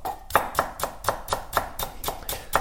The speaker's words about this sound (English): I just want to hear the sound it makes when you cut onions and chives.